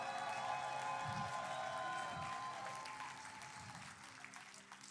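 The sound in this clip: An audience claps at a lively church service, a dense, continuous wash of applause that fades slightly toward the end, with faint voices and a few cheers mixed in.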